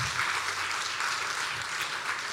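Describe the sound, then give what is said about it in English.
Audience applause at a church camp gathering, steady dense clapping from a crowd that holds an even level throughout without pauses or voices on top. “Give these people a round of applause, too.”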